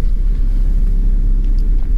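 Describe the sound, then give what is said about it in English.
Car engine rumbling low and steady while a car backs out of a driveway, a continuous loud drone with no distinct events and no talk. “And I'm backing out from a driveway.”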